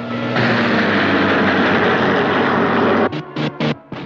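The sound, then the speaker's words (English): A plane zooms overhead with a loud, steady, roaring rush that holds for about three seconds. It then breaks into a few short, choppy bursts and drops away. “Officers observe from the ground as Jones' plane zooms over their heads.”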